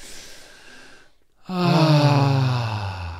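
A deep breath before singing: a soft, breathy intake, then a short hush and a loud voiced exhale that sighs steadily downward in pitch.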